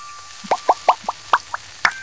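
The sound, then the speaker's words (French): Dish soap is poured into water, making foam. A quick series of bright, wet plops and drips in an irregular rhythm, each a short ringing blip, heard alone over a faint hiss. “verse un peu de liquide vaisselle dans l'eau. Et ça fait de la mousse.”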